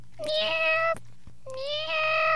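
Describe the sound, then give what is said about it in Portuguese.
Two drawn-out cat meows, each a steady, clear tonal cry of about a second or less, separated by a short pause, heard alone in a children's game of naming animal sounds. “É um gato miando, professor.”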